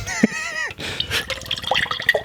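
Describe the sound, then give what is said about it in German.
A drink is poured into a glass, making a soft, uneven trickle and splash that runs for about two seconds, with a brief voice-like sound at the start. “Dann muss ich noch in mein Glas füllen.”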